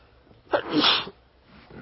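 A single sneeze rings out against near silence: a sharp burst followed by a longer, breathy, hissing release that quickly dies away.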